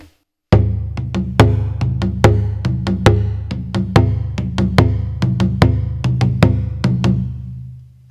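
A taiko drum plays the ji-uchi bass rhythm: deep booming strikes fall in a steady repeating pattern, with many hits whose resonance rings between beats before fading at the end.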